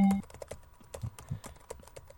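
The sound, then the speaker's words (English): Details are typed into a computer keyboard, many light, irregular clicks in quick succession, quiet and mostly alone. “We're online, so we just got to type in your detail.”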